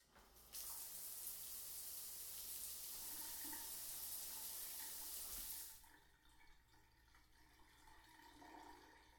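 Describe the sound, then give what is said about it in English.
A shower runs with a steady, loud hiss of water for about five seconds, then cuts off, leaving a quieter background. “I'm just gonna take a quick shower.”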